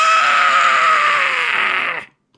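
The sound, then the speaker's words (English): A voice imitates a beaked monster's scream: one loud, raspy, sustained shriek of about two seconds that cuts off abruptly. “brings the front of itself up, brings that beak right in front of your face, and just screams with it.”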